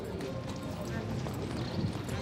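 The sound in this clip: Hooves of a mare wearing transport boots, clopping as she is led into a horse transporter after a show-jumping derby; faint, irregular steps under a person talking.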